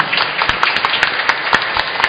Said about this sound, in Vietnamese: Xin mọi người chúng ta chúc mừng một tràng vỗ tay thật lớn.